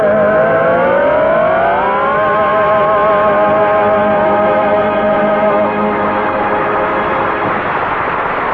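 A car engine revs as the car drives off, its whine climbing in pitch over the first two seconds and then holding a loud, steady drone to the end.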